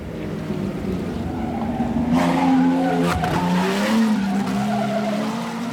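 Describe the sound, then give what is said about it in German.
Grand Prix motor race cars roar with a loud, sustained engine whine whose pitch shifts up and down, joined by a skidding squeal, with no talking. “Nowadays, of course, men create their own furies in a Grand Prix motor race.”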